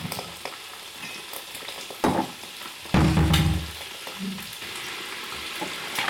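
Bacon sizzles and crackles in a frying pan, a steady hiss with two louder surges partway through and some faint clatter.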